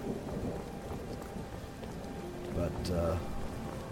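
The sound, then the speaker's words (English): Steady rain on a stormy morning gives a constant hiss of falling drops with a low rumble underneath, swelling slightly toward the end and continuing without pause. “It's still raining this morning, sort of suiting our mood. Kind of stormy weather.”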